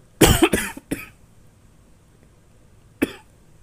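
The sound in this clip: A person coughing: a quick cluster of several harsh, loud coughs, then a short pause and one more single cough, with no talking.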